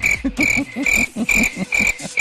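A cricket chirping sound effect played after a bad joke, rapid, evenly spaced pulses, roughly nine of them, each a short trilling chirp, loud and alone.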